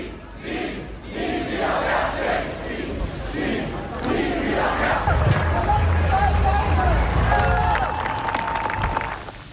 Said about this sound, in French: ce que vous venez d'entendre, c'était un extrait sonore de la Schulstreik gegen Wehrpflicht, ou grève des écoles contre la conscription